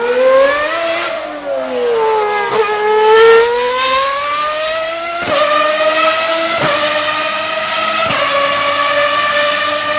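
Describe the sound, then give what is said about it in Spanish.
Race car engines roar at the Jarama racing circuit, a loud high-pitched whine that climbs in pitch, then snaps back down at several sharp gear shifts before rising again, continuous and with no voices. “qué rugir de motores”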